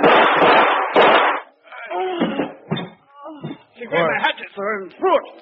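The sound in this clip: Two loud, sharp gunshot blasts in a radio drama ring out back to back, then several voices talk excitedly.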